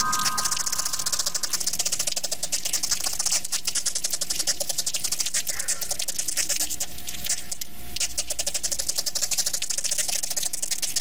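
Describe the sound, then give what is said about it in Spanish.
Myrmica ants make clicking stridulation as a hind leg strikes a specialised ridge along the abdomen. A dense, continuous stream of rapid, dry, high-pitched ticks and clicks runs steadily throughout. “Las hormigas pertenecientes al género Myrmica producen chasquidos con su mandíbula. Tienen un pico especializado a lo largo de su abdomen que pueden golpear con una de sus patas traseras.”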